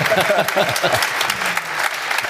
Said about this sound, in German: da holt er sich nochmal einen Applaus